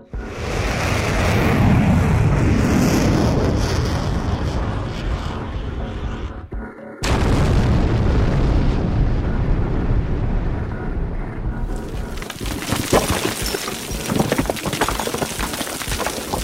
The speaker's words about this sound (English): crystal has hit Devil's Overpass and exploded, causing an avalanche.